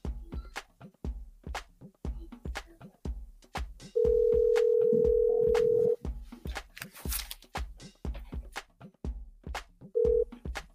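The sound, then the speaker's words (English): A telephone ringback tone sounds as a call is placed to a caller, with one steady tone lasting about two seconds and the brief start of another near the end, over rhythmic background beats. “All right, so we're going to call our next caller. We are calling right now.”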